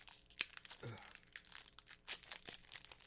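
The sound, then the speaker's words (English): A Pokémon trading-card code card is torn up, giving quiet crinkling and ripping paper sounds over about three seconds, with a sharper crack early on. “Hope you guys enjoyed that sweet, sweet ASMR. Yeah, you like me tearing up another green code.”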